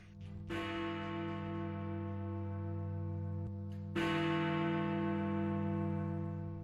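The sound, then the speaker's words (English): A large clock tower bell in London strikes the hour with two deep, loud strokes, each followed by a long, rich, resonant hum that sustains and slowly fades. “That is the sound of Big Ben.”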